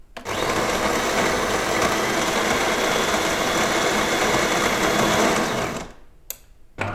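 Coffee machine grinding beans: a loud, steady whirring grind runs for about five and a half seconds, then cuts off, followed by a few brief, quieter noises.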